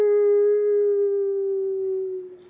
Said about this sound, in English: There's nothing like the power of a wolf. You know, that sound when you're out in the wild,